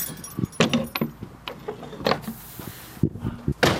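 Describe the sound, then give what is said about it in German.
Keys jangle and a lock opens on the door of a 14th-century lime kiln, a sequence of metallic rattles, clacks and clicks. “Das Schloss des Kalkofens öffnet sich.”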